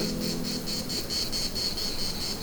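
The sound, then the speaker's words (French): Cicadas singing at 1,600 metres altitude make a shrill, high buzz that pulses in a quick, even rhythm. It runs unbroken from start to end over a low background rumble. “Peut-être que pour vous, ce son est agréable. Cigales à 1600 mètres d'altitude.”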